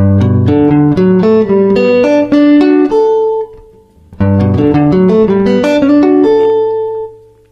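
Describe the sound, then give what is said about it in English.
A guitar plays a G major seventh sound built from G and D major triads in two phrases. Each phrase is a quick series of picked notes that ring together and sustain before fading, with no voices. “combining a G and a D major triad, we get the G major seventh sound. Sounds a little like this.”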